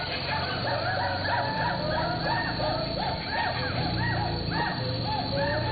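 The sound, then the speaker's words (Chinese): Gaoligong white-browed gibbons calling in a primary rainforest in Yingjiang, Dehong, Yunnan: many repeated arching whoops that rise and fall in pitch, overlapping in a steady chorus above a dense, low background hum. “长臂猿行动速度非常快，虽然还没有看见他们，但是我们已经听到他们的声音，大家仔细听。”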